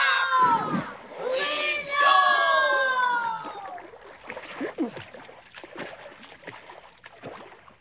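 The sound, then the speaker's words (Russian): Oars splash through water as a small boat is rowed off in an animated adventure, beginning after a loud, excited cheer of voices; the strokes then come as a run of irregular watery splashes and swishes, softer than the opening cheer. “А я сяду на весла. Курс на приключения. Ура!”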